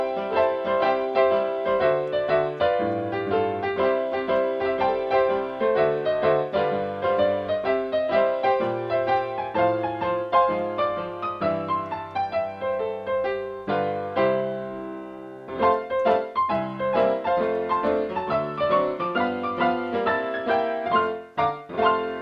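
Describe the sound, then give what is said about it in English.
Parlor piano recorded through a small computer microphone, playing a continuous stream of many bright, tinkly notes and chords for over twenty seconds, with one brief pause partway through before the playing resumes. “Here's like a parlor piano. This is just a guy recorded his piano with his little computer mic”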